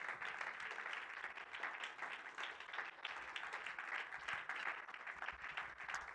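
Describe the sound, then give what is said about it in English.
A church audience claps its hands in worship. The clapping from many hands is dense and continuous, stays fairly faint and steady from start to end, and has no distinct beat. “would you clap your hands one more time to the Lord?”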